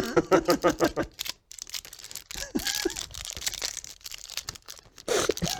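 Packs of Game of Thrones trading cards are torn open in many rapid ripping and crinkling bursts of paper and foil, with a few short pauses between.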